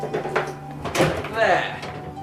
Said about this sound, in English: I could open one of the shutters if you like. Let some light into the gloom.